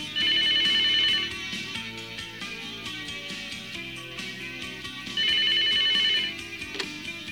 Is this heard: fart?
no